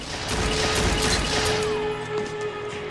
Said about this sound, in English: darts behind an upturned table and shoots one of the two gunmen dead.